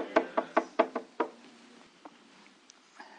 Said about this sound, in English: Mary and Martha, they're busy cleaning the house, and all of a sudden, behold, I stand at the door and knock.